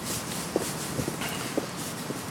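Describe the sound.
Soft footsteps of people walking a route, a few light, irregular steps barely rising above a steady background hiss.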